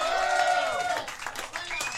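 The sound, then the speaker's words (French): Audience applause for a graphic designer who paints live at the event. A voice speaks first, then scattered, moderately loud clapping fills the second half. “On peut applaudir Caroline.”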